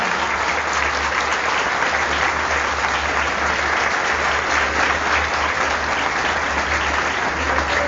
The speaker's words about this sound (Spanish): ¡Fuerte los aplausos para Diego Alberto